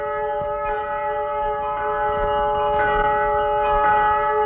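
A conch shell is blown to welcome a guest as a sacred custom, producing a loud, steady, sustained tone rich in overtones that holds without a break for several seconds.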